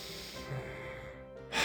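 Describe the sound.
A brief, airy breath drawn in through the nose, rising sharply at the very end over a soft, steady tonal background.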